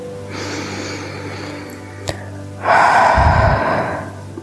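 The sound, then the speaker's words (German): A deep breath during a guided meditation: a long, soft inhale followed by a louder, rushing exhale, with a steady low drone running underneath. “Atme nochmal tiefst durch.”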